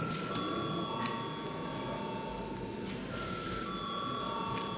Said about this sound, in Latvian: Paldies, lūdzu zvanu.